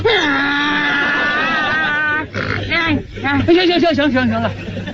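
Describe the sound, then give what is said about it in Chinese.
A human voice imitates a donkey braying, a loud, sustained and wavering call that rises and falls in pitch over several strained pulses, heard alone in a comedy performance. “到现在我连驴叫我都能学。你要不信我给你学学。”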